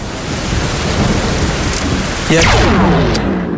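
A thunderstorm with rain: steady, dense hissing rainfall fills the whole span, and a sudden louder thunder burst breaks in partway through and lingers over the rain.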